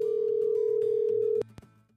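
A steady single-pitch telephone line tone on an outgoing call that comes back busy holds for about one and a half seconds, then cuts off, followed by two sharp clicks.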